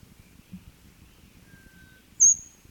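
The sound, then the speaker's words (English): High, thin bird notes: a faint, drawn-out whistle, then one louder, piercing, very high note that drops slightly in pitch, over soft low background noise. “all high thin notes been given by the same bird.”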